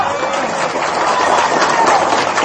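Audience members clap their hands during an Islamic New Year (1 Muharram) sermon, producing a dense, loud, steady rush of clapping that holds evenly from start to finish.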